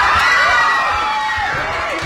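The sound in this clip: A courtroom crowd cheers and shouts after a not guilty verdict, a loud, continuous din of many voices throughout.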